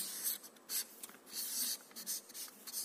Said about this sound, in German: Ich schreibe das hier mal rein.